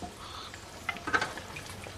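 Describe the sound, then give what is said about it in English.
Onions frying in a pan give a faint, steady sizzle. A few soft stirring clicks rise briefly near the middle, and no voices are heard. “How long are these onions meant to cook?”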